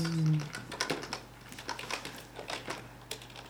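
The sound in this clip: Keyboard typing as a short message is entered into a chat, irregular clicking keystrokes scattered throughout at moderate loudness over a low steady hum.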